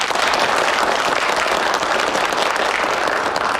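Applause from a room of people at a meeting, welcoming visiting officials: a steady, loud wash of many clapping hands that holds without letup for the whole stretch.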